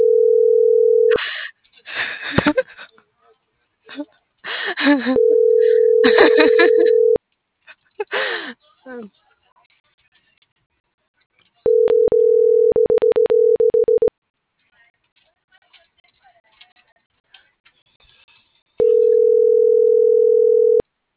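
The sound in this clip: Ringback tone of an unanswered phone call: four long, steady, even-pitched tones separated by pauses of several seconds, with people talking in the gaps between them.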